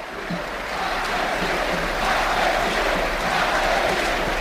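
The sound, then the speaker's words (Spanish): Sustained stadium ovation from football fans at a Unión Deportiva Las Palmas match as a substituted player leaves the pitch: a dense, steady crowd roar that swells slightly and holds without distinct claps. “Cristian Herrera, que se despide incluso de algún futbolista de la Unión Deportiva Las Palmas. Ovación de gala para él.”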